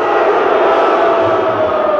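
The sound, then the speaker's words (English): A crowd shouts a mix of cheers and boos at the name of George Bush, forming a loud, unbroken roar of many voices. “I think there's some yays mixed with the boos. How many say yay Bush? How many say boo Bush?”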